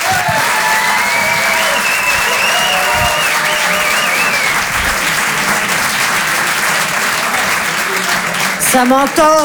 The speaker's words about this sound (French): Je vous demande un maximum de bruit, s'il vous plaît, également pour Antonia de Rendinger.